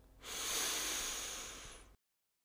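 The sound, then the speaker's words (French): One deep, slow breath drawn in through the nose, a soft airy hiss that swells quickly, then fades gradually before stopping abruptly. “Inspirez profondément par le nez en gonflant le ventre et la poitrine.”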